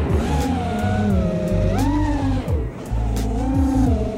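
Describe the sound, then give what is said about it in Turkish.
An FPV racing drone flies past at high speed, about 140 km/h, its loud, high motor whine swooping repeatedly up and down in pitch over a low rumble. “Bu ne şimdi? Kuş galiba. Yok be, uçak o uçak. Kanka UFO o ya. FPV drone o. Saatte 140 km hızla uçuyor.”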